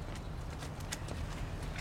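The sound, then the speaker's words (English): A woman's footsteps march down steps and along a sidewalk, forming a faint, quick series of sharp, evenly paced taps. “She comes down the steps, chewing on her lip as she marches down the sidewalk.”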